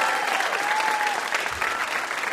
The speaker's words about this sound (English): How about a hand for our VIP, Adam Rapoport?